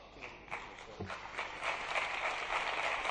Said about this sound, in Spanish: Aplausos para la intervención de Adolfo Rousseau